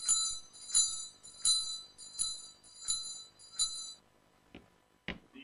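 A hand bell is rung to summon a servant in a household. It gives six bright, high, shimmering strokes in an even rhythm, followed by two dull thuds, and stays fairly quiet throughout.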